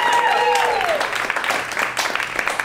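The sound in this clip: Audience applause at a live show, a dense spread of clapping that continues steadily and slightly thins toward the end.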